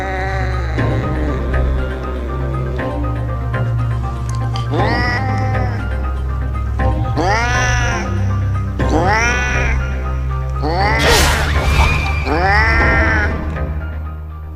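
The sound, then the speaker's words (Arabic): A black cat on a bed meows in several loud, drawn-out cries that each rise and then fall in pitch, set over a low, steady hum. “شلت الستارة ملقتكش، لقيت قطة سودة مكانك على السرير.”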